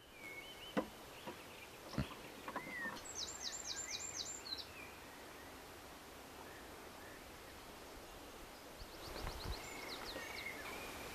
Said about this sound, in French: Ça arrive tranquillo, le bruit des vagues, les oiseaux et tout.